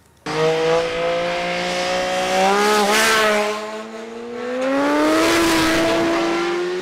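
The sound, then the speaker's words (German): Engines roar as cars speed into a bend on a country road at over 100 km/h, overtaking across a solid line. The loud, sustained drone dips slightly in the middle, then swells again with rising pitch. “Fahren hier mit, keine Ahnung, über 100 km/h in die Kurve, die überholen, trotz durchgezogener Linie, es interessiert sie nicht.”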